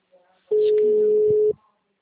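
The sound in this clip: A telephone tone follows a dropped call: a single steady, mid-pitched beep lasts about a second and stops cleanly, with only a faint brief sound before it and quiet after.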